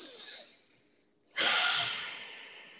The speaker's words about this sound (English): Now, everybody take a deep breath.